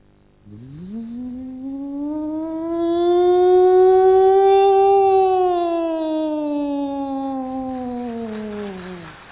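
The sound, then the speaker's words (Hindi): A voice imitates a factory siren: a long, loud wail that sweeps up in pitch, holds steady, then slowly falls away, lasting about nine seconds on its own. “Siren, factory का siren कैसे बजता है?”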